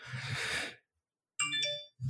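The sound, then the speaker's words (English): A phone notification alert chimes in a short run of bright, ringing tonal notes. It follows a burst of noisy sound and a brief silence. “I have my goddamn notifications on again.”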